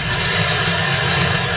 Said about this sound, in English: That's the sound of Marine One landing.